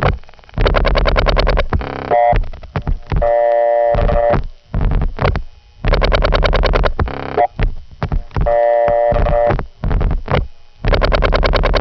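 Telephone tones sound as a caller dials a heavily tied-up radio call-in line again and again before getting through. Loud bursts of tones repeat many times with short gaps between them.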